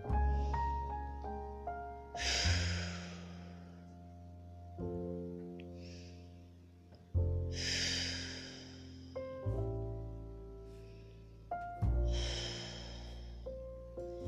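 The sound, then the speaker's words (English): Deep breaths taken one after another: three loud, airy rushes of breath over a sustained tonal music bed, with quiet stretches of music between them and no talk. “I'm going to take a couple deep breaths, and here we go.”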